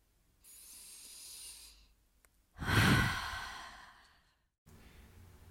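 Slow, deep meditative breathing: a long steady inhale, a pause, then a louder, drawn-out sighing exhale, followed by faint hiss, with no talk.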